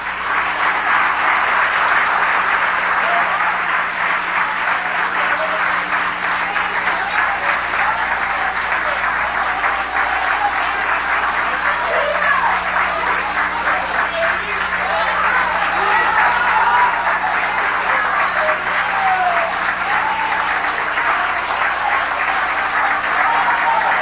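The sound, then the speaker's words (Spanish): Loud audience applause at a staged auction show, a thick, steady roar of many hands clapping that holds an even level without a break for over twenty seconds. “Vamos a animarle con un fuerte aplauso, pero bien fuerte”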